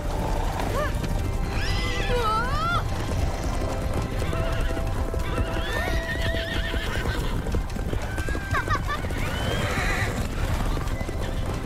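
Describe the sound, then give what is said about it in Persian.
Hooves clip-clop steadily under a rider on horseback, with several high, wavering neighs and whinnies cutting through the constant clatter. “دارم با تندر سواری میکنم.”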